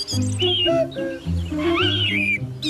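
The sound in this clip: A short birdsong-like jingle marks the start of a tip segment. Bright whistling, chirpy melodic phrases rise and fall over a steady tonal backing, playing continuously and fairly loud with no talking.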